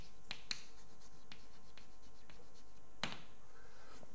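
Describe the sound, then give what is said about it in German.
Writing on a board during a lecture comes through as faint scratching strokes, punctuated by a few sharp, bright clicks and taps spread over a quiet background. “Ich schreibe jetzt einfach mal hier hin Boltzmann.”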